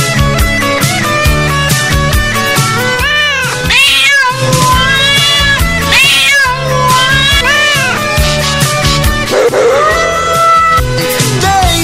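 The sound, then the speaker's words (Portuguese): A voice imitates cats caterwauling at a live show, with repeated bending, wailing meow-like cries over loud, continuous band music. “gatos namorando em meu quintal”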